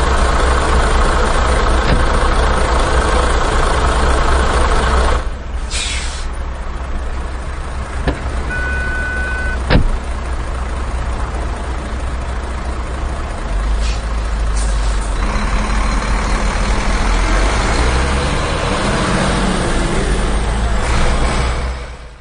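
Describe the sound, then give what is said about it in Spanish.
A truck idles with a steady, deep engine rumble that carries on at an even level, broken only by a few brief clicks and small shifts in tone. “Ah, mira, si está aquí el camión.”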